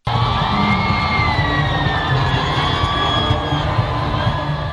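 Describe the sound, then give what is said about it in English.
Crowds at Kinshasa's Ndolo Airport cheer Pope Francis's arrival with a loud, continuous roar of many shouting voices. Sustained high whistle-like tones run through the noise. “Hundreds of thousands of people welcomed Pope Francis as he arrived at Kinshasa's Ndolo Airport on Wednesday before the pontiff delivered a mass to the crowds. The crowd showed their joy while Pope Francis waved to them”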